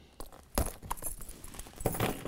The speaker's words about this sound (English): So I'm going to take my keys because, of course, this plastic is